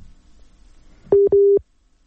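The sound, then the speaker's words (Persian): A telephone busy signal sounds after a dropped call: two loud, steady, low-pitched tone beeps, the second a little longer, following near silence. “متاسفانه که تماس را از دست دادیم با بانو توانا”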